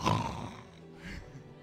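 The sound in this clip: A person imitates a lion's roar during a church sermon, giving one loud, raspy roar that trails off, then a second, weaker growl.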